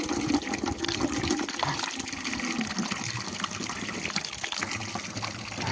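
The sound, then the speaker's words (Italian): A small drinking fountain runs, a continuous gushing splash of water that stays steady throughout with no voices. “come al solito la fontanella.”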